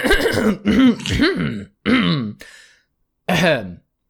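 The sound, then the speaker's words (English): A tall man in a deerstalker cap clears his throat theatrically, with a few loud voiced bursts and a short raspy scrape near the end, separated by brief pauses. “the tall man in the deerstalker cap clears his throat”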